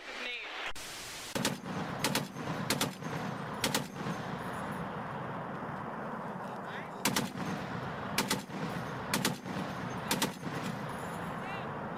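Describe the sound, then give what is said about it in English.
Machine gun fire comes in many short, sharp bursts, spaced irregularly over a steady hiss of background noise. “No, it's a machine gun.”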